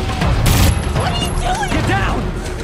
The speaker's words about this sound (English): Letting the others go on without him, Shane fires on their pursuers.